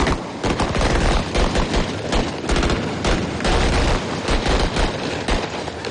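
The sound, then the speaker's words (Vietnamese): Dense gunfire from a military drill of applied shooting in various firing positions after climbing high walls, a loud continuous barrage of overlapping sharp shots and booms with no pause throughout. “Tiếp theo là nội dung vượt tường cao 1m, 2m kết hợp bắn súng ứng dụng ở nhiều tư thế khác nhau.”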